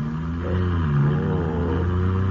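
A smooth-running car gives off a steady, low engine hum as it drives across a field. The drone stays fairly even throughout, with no voices over it.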